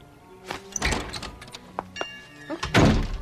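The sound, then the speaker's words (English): Knocking on a leaded glass door gives a few dull, irregular thuds of uneven loudness, with faint ringing between them. The heaviest knocks come at the end. “knocks on the leaded glass door.”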